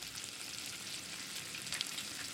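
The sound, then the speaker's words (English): Dry seeds fry in a hot non-stick pan with a steady, fine crackling sizzle that stays faint and even, with no talk. “Heat a non-stick pan with the paste. Add 10 grams of dry privilege seeds.”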